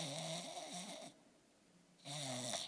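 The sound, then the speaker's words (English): A voice imitates snoring in two drawn-out, rasping, throaty snores separated by a short quiet pause. “And just snoring away, and he's just having a dandy old time in Restville.”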